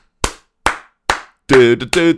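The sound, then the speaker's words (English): Three sharp, evenly spaced hand claps imitate the clapping of a late-night talk-show studio audience, followed by a brief burst of vocalizing. “there's a clap on the downbeat and there's a clap on the upbeat, and Late Late Show, I shouldn't have brought race into this. Anyway, the Late Late Show people clap like,”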